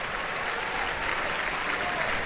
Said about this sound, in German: Lässt hier das Orchester nochmals aufstehen. Mit einem heftigen Beifall, wie Sie hören, hier in der Felsenreitschule.